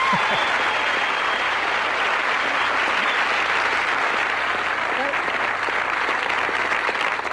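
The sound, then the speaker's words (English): An audience applauds wildly in loud, unbroken clapping that stays at a constant, dense level for the whole stretch. “The audience going wild.”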